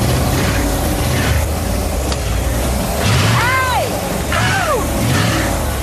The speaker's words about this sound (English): They've also continued to work on their errant engine and are ready to fire it up, hopefully without starting another fire.